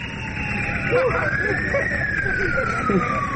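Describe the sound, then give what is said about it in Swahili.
An ambulance siren wails on its way to the main government hospital in Yaounde, Cameroon, its tone sliding slowly up and then gliding back down over steady traffic rumble, with talk running underneath. “Gari la wagonjwa linakwenda kwenye hospitali kuu ya serikali mjini Yaounde”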